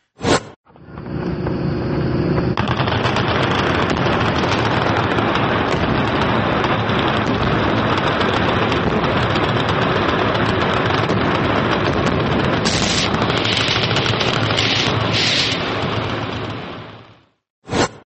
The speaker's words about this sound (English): That looks to me like gunfire at explosives of some sort. Almost as if it was done for some sort of, I don't know, gun show or something in Kentucky.